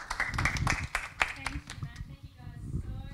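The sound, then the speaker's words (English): Audience applause welcomes a speaker at an evening talk on managing children's screens, with scattered sharp claps over a murmur of voices, thinning out after about two seconds. “So please put your hands together. Let's welcome Caroline Allen.”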